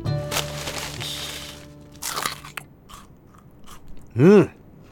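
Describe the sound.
Someone bites into broken pieces of homemade food with crisp crunches and chewing: a long crunchy stretch, a second burst, a few softer crunches, then a brief hummed voice near the end.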